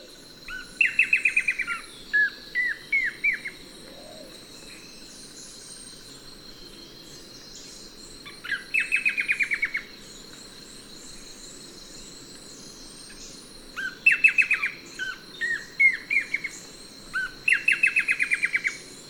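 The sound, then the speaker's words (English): Blackish antbird song: a few bursts of high, descending whistled notes repeat in quick series, separated by quiet gaps, over a steady, thin, high-pitched insect-like whine. “Blackish Ant Bird, 1.”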